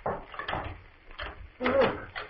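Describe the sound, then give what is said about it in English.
Door lock being worked and unlocked, a few muffled clunks and rattles, fairly faint, with the loudest knock near the end. “Yes, something is moving the lock. Someone's out there. Some. Wait till I unlock the door.”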